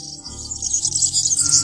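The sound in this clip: A canary chirps in a high, continuous, quivering trill at fairly even loudness, over a low, steady hum.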